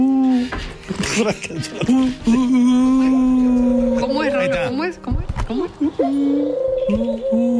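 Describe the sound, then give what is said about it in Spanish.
A person vocally imitates the cooing song of an eared dove (torcacita) with sustained, hooting voiced tones and brief pitch glides, repeated steadily and fairly loud with no other sounds. “Esa Torcasita cantando. Ay, oh, insoportable. ¿Qué era Torcasita cuando estás a la hora de la siesta? Insoportable cantando.”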